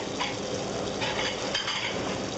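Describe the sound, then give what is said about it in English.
Restaurant kitchen clatter as a cook grills a bonito fillet and fries lumps of calamari in a pan of hot oil: continuous sizzling with clinks of pans and utensils, no voices. “In the kitchen of a venerable restaurant called İmruz, a cook flips a bonito fillet on a grill with one hand and with the other throws lumps of calamari into a pan full of hot oil.”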